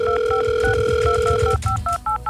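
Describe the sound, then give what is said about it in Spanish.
A telephone being dialed to call someone: a steady dial tone holds while a rapid series of short two-tone keypad beeps sounds. The dial tone then cuts off, and the beeps continue with brief silences between them. “¿ya está marcando a alguien ahí?”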